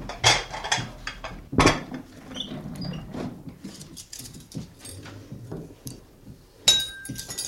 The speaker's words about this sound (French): Tu peux déboucher. Alors, les verres, oui. Alors, Bourgogne, récoltant à Irancy. Je te sers, hein.